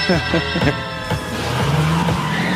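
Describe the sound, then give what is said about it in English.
Squealing tires and a revving engine from an old Plymouth Fury car in a film, with swooping pitch and sustained loud noise under voices. “I like the way the car sounds. It was a Fury, wasn't it? Yeah, an old Plymouth Fury.”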